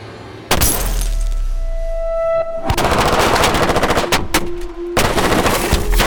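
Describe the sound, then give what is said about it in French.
Police gunfire pours onto a BMW car in loud, sustained bursts of rapid automatic shots mixed with shattering glass, broken by a few short gaps. “Un déluge de feu s'abat sur la BMW, clouant à son siège l'ennemi public numéro 1.”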